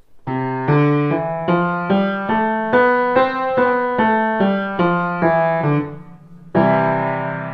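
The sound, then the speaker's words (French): Piano notes played one after another in an even, moderate-paced run, each tone struck clearly and decaying, then a short pause before a fuller final chord rings out. “Un piano, ça fait des notes comme ça.”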